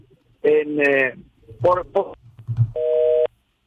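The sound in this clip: A single steady telephone tone sounds after a dropped call, holding at one pitch for about half a second once lively talk from the caller ends.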